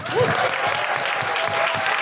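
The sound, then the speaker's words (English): Theatre audience at Soho Theatre applauding at the close of a live comedy show, producing a brief, full burst of continuous clapping at an even, fairly loud level from start to finish. “And a big, big, big round of applause and thank you to Soho Theatre.”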